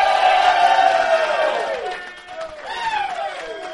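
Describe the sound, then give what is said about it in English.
A crowd cheers and whoops for a guest billed as a shoe maker, with loud sliding yells that fall in pitch, a brief dip, then another swell of cheering. “Now, ladies and gentlemen, make some noise.”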